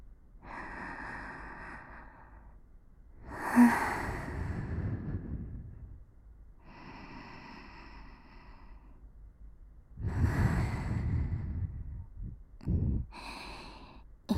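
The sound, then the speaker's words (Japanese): Slow, deep human breathing: long, soft inhales alternate with louder, breathy exhales over a few unhurried cycles, with quiet pauses between breaths. “ゆっくり吐くの繰り返し、スーッと吸ってはーっと吐く。”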